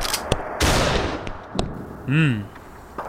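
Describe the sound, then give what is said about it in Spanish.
Gunfire sound effect in a Spanish-language anime-themed pastorela radio drama, a few sharp, loud bursts spread across the moment, with a brief voice near the end. “Ahí viene. Chicos, ¡disparen!”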